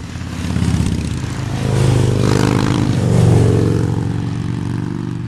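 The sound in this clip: A two-stroke motorcycle engine revs with a rough, buzzing drone that swells and eases in loudness over several seconds, loud throughout and with no voices.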